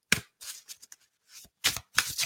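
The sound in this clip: A deck of oracle cards is shuffled in a series of short, crisp riffling bursts with brief silent gaps between them, and no voices.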